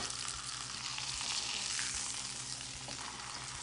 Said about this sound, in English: We're going to pick our lamb up a little bit and very carefully just throw this hot oil right over the top.